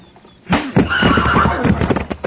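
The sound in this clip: A horse tied at a crowded hitching rack gives a loud, drawn-out whinny that breaks in after a brief quiet moment, its wavering voice lasting almost two seconds.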